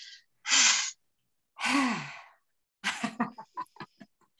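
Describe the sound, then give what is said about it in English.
Breathy exhalations made with the tongue stuck out, fairly soft: a brief puff, two long sighing out-breaths, then a rapid, sputtering series of short breathy bursts. “Stick your tongue out and exhale.”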